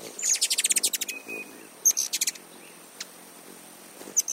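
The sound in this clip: A hummingbird chirps in high, thin, rapid bursts: a quick string of many sharp tweets, then a shorter cluster and a few isolated chirps, fairly faint.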